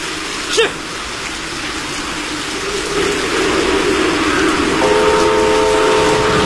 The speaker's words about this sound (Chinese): 詹天佑夜以继日赶修的铁路坍塌路段终于重新试车了。 试车。